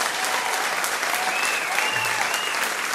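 Audience applause: loud, dense and continuous clapping from a crowd, holding a steady level from start to finish without talk over it.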